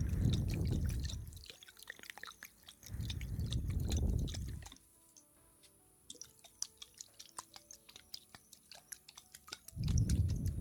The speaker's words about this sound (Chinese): 想听我吃零食吗？